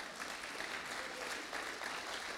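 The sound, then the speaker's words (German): Audience applause for a man named Michael: a dense, even wash of many hands clapping, steady and moderately loud for the whole stretch, with no voices rising above it. “Also, ganz einen herzlichen Applaus, Michael.”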